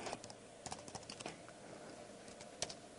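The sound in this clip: Soft clicking of a computer keyboard as code is typed, in short uneven bursts of keystrokes with brief pauses between them. Faint and alone, with no voices.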